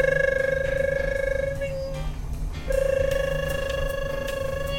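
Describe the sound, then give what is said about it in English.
An elevator phone rings with a loud, fast-warbling electronic tone that holds steady, cuts out for about a second in the middle, then resumes. “I don't know what that sound is. That the elevator phone?”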